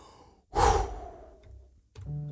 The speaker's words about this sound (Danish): Og så puster jeg dit ønske ud i evigheden.